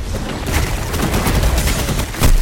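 Gunfire in the video game Destiny 2 comes as a dense, continuous volley of many rapid shots. The sharp cracks are loud and fairly even throughout, with a stronger burst near the end and no speech.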